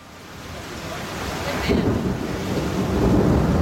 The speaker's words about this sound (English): As you can hear, we are caught in the storm here in Croatia. You can hear that in the background. A monster of a thunderstorm has caught us in the Mljet National Park